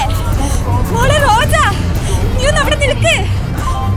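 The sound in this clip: Crowd babble on a busy railway platform at Kalyan Junction, Mumbai: a dense, continuous murmur of many voices, with a few raised calls rising above the din.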